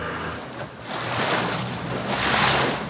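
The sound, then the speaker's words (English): Water rushing and splashing around a boat taking on water and sinking in a Louisiana bayou before dawn, a dense, steady hiss and wash with wind buffeting that swells twice. “Boy, we're taking on a lot of water. That sound you're hearing is my boat sinking at 4:30 in the morning in the Bayou in Louisiana.”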